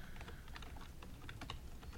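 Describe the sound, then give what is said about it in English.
Keys clatter on a computer keyboard in quick, irregular taps as a search is typed in, faint and continuous for the whole stretch, with no voices. “I'm going to type it into Google”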